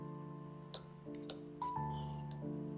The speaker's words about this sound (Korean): 청량한 그 소리는 영락없이 동물의 뼈가 접시와 맞부딪히는 소리였다.